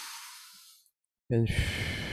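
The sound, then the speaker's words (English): A deep inhale through the nose into the belly during a breathing demonstration makes a soft, airy rush that slowly fades. After a brief silence, a louder voiced sound follows. “So you inhale through the nose and the belly always, like,”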